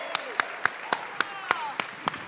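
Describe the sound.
Audience clapping as a comedian is welcomed onto a stage: a steady run of evenly spaced, sharp claps, about eight in a row, with a voice faintly audible over them.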